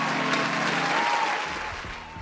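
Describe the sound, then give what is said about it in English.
Audience applause welcoming a guest onto a show: a dense, steady wash of clapping that gradually thins and tapers off toward the end. “Can we give him a hand?”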